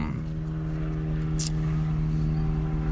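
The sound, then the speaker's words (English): Helicopters flying overhead produce a continuous low droning rumble with a steady, even hum that holds at a constant level throughout. “This helicopter thing has got me. It's like, yo, back to back helicopters.”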